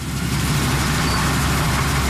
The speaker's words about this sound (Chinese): 王宏伟跳上了割晒机，随着机车驶过，水稻被整齐铺放在20厘米高的秸秆茬上。